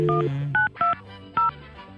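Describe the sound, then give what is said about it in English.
Telephone keypad dialing tones: four short dual-tone beeps at uneven intervals, the first one slightly longer than the rest. “Isn't it dialing? Is that an 8?”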